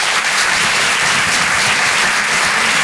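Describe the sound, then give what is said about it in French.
Audience applause at a comedy club as a comedian is introduced: dense, loud, continuous clapping that holds steady throughout, with no voices. “Faites du bruit, s'il vous plaît, pour Gaëtan Huisson.”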